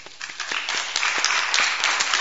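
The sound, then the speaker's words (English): Audience clapping at a church kids' club gathering, starting with scattered individual claps that quickly build into a fuller, steady round of applause. “And they're not here today, but we're going to clap for them.”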